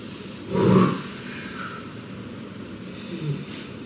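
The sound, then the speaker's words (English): Deep breathing during a guided breathing exercise: one strong, rough rush of breath near the start, then softer, quieter airy breathing that continues to the end. “Breathe into that energy. Take a deep breath. And again.”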